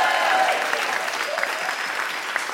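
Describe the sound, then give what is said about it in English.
A live audience applauding the evening's guests, a sustained, even burst of clapping from many hands that fades only a little over its length. “Can we give one more hand to all our guests tonight?”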